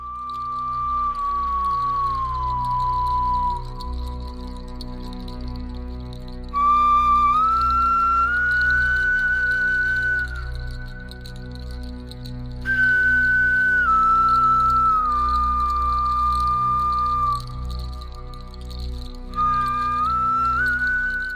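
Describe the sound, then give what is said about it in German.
A flute made from a bear's thigh bone plays a slow, melancholy melody of long, pure whistling notes that glide and step between pitches, each held for several seconds, with no voices over it. “wurde aus dem Oberschenkelknochen eines Bären hergestellt. Und das Besondere hier im Museum ist, ein Musiker hat eine ganze CD mit Musik aufgenommen, die er mit dieser Flöte spielt. Und ich habe ein kleines Beispiel mitgebracht, da könnt ihr mal reinhören.”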